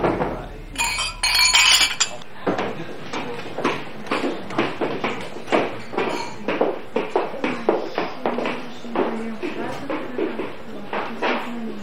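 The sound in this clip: Glasses clinking together in a toast at a meal: a short burst of bright clinks at the start, followed by people talking and laughing.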